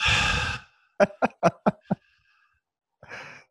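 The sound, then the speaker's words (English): Exaggerated heavy breathing from a person: a loud, rough breathy exhale, then five short voiced pulses in quick succession, and a softer breath at the end after a pause. “Start doing some heavy breathing too, okay?”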